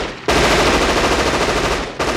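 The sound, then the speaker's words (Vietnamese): A submachine gun fired into the air as a warning over a dense crowd: one long, rapid, loud burst of shots lasting nearly two seconds stops abruptly, and a second burst starts right at the end. “nhiều tiếng súng cùng nổ một loạt. Đây là súng tiểu liên, đặt bắn chỉ thiên để hăm dọa.”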